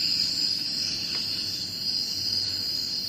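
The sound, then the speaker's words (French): Insect ambience recorded in New Guinea plays slowed down, a steady high buzzing of crickets running unbroken throughout. A soft low rumble sits beneath it, there are no voices, and the whole is fairly quiet. “Ça, c'est en Nouvelle-Guinée. On a l'ambiance sonore de la Nouvelle-Guinée.”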